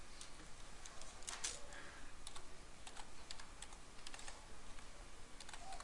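Soft typing on a computer keyboard: many irregular keystroke clicks, quiet and steady, with no one speaking.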